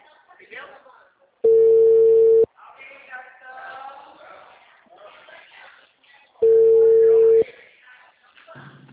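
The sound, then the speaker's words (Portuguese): Ringback tone on a phone line as a bank calls a customer: two steady one-second beeps, several seconds apart, loud against softer talk between them. “Tá chamando, não sei se comigo.”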